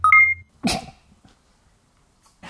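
A sharp, choking cough from someone whose mouthful of bourbon went down the wrong pipe. A short beep comes first, then one forceful coughing burst, a quiet pause, and another burst starting at the end.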